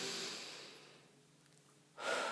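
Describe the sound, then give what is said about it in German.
A slow, deep breath at the close of a guided relaxation exercise: a long, soft airy rush that fades to near silence, then a fresh breath starts to rise at the end. The whole sound is quiet and close. “Nimm einen ganz tiefen Atemzug.”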